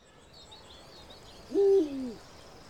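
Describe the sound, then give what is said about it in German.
An owl gives a single low, mellow hoot in a large aviary of nocturnal birds such as owls, eagle-owls and tawny owls; the call swells and then fades, with faint high chirps earlier over quiet background hiss. “In dieser großen Voliere wohnen unsere nachtaktiven Vögel. Eulen, Uhus und Waldkäuzchen.”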